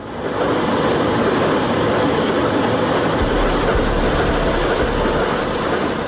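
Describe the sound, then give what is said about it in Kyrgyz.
A freight train rolls into a railway station in Kant: a steady, loud rumble of wheels on rails with a rhythmic clickety-clack and a deep low-frequency drone building slightly, with no voices. “Кант шаарындагы темир жол бекетине поезддер тынымсыз келип келет.”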